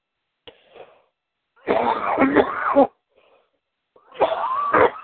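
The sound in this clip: Harsh coughing and throat clearing in a few raspy bursts: a faint short one, then two longer, louder spells separated by brief pauses.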